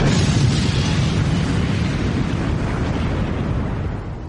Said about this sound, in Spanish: Todas las cargas cercanas se ponen a explotar. La explosión a bordo del Kursk fue tan potente,